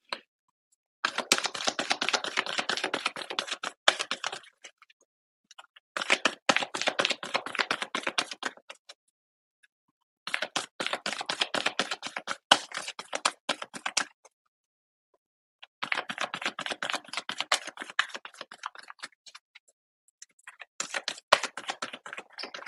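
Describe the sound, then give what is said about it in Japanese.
Playing cards being shuffled in five bursts of dense, rapid crackling riffles, each a few seconds long, separated by short silent pauses, with no talk. “それではちょっとカードシャッフルしていこうかなと思います。”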